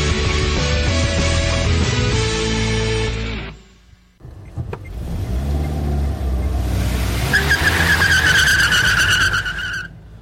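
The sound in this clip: Car skidding sound effect: a loud, roaring engine-and-tire rush cuts off after about three seconds, then a second surge builds and ends with a sustained high tire squeal.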